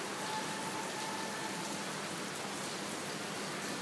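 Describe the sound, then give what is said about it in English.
Rain falling in a steady, even hiss of dense drops that stays constant from start to finish, with no voices. “except enjoying the rain.”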